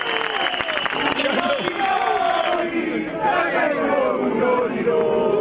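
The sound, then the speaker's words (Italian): An audience gives a loud round of applause, with dense clapping that runs throughout and raised voices cheering and calling over it. “Un grande applauso.”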